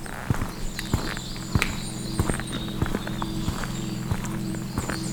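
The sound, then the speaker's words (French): Footsteps of someone walking along a path, with light, crisp steps at a steady, even pace over a constant low hum in the background. “Là, vous marchez.”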